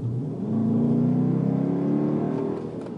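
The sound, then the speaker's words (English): A V8 engine revving, a steady throaty drone that swells and climbs slightly in pitch, holds loud, then eases off near the end, with no talk over it. “And here's the little bit of V8 sound for you guys.”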